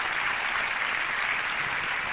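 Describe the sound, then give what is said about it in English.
An audience gives a round of applause to a doctor being honored during a speech, a steady, even wash of clapping from many hands that holds at the same level throughout. “Dr. Lincoln, just raise your hand. He's back there. Give him a round of applause.”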